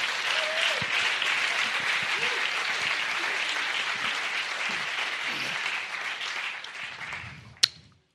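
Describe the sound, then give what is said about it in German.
Church conference audience applauding in praise of God, sustained dense clapping that holds steady for several seconds, then thins and fades out, with a single sharp knock right near the end. “Now give a big praise to God. Und jetzt ein großer Applaus an Gott.”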